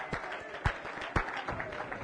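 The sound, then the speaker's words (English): Congregation clapping hands during a church service, a fairly faint wash of clapping in which a few sharper, louder claps stand out. “Clap your hands unto the Lord.”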